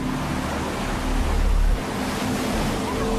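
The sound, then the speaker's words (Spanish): A large ocean wave, some 15 to 20 feet tall, breaks as a dense, roaring wash of surf that swells into a deeper, louder rumble midway before easing back to a steady roar. “That wave is a good 15, 20 feet tall. Easy.”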